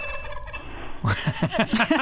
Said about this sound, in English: So what you were hearing was a blue jay